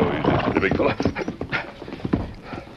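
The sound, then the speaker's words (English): Hoofbeats of a horse as its rider arrives, a quick, uneven clip-clop of many hoof strikes under people talking. “Tonto was watching from a hill when the Lone Ranger rode up to join him.”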